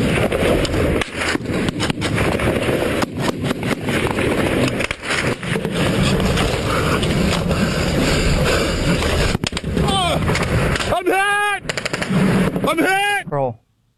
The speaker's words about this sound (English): Private First Class Teddy Daniels was shot four times.